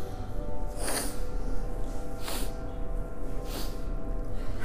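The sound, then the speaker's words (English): Three short sniffing breaths taken during a breathing exercise, evenly spaced sharp nasal intakes over a steady, faint background hiss. “Right, so let's try it with the breath. Sniff, sniff, sniff, and ha. One, two, three, exhale.”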